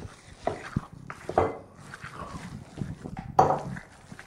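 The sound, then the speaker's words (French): Batter with eggs and yeast is stirred in a bowl as warm milk is poured in, giving quiet scraping and stirring with a few sharper clinks of a utensil against the bowl. “Les œufs et la levure. Donc on continue donc à mélanger tout en versant du lait tiède.”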